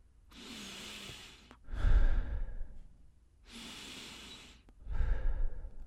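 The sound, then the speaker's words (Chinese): Two slow, deep breaths: each is a long airy inhale followed by a heavier, louder exhale, with an even rhythm and no talking. “让我们闭上眼睛，深呼吸两次，”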